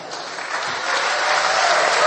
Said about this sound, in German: So sprach Viktor zum Publikum, das ihn mit großem Applaus belohnte.